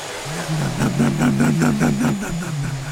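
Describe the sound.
A voice imitates a vacuum cleaner with a steady buzzing drone that pulses rhythmically throughout, a low humming mouth-made motor sound.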